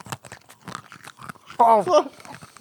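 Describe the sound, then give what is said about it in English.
Brittle crunching of very old, disintegrating gum being chewed, a few dry bites and crackles, with a voiced exclamation breaking in partway through. “It's not gumming yet. No. It tastes like cardboard. It sounds like... It's just disintegrating in my mouth. Come on, gum.”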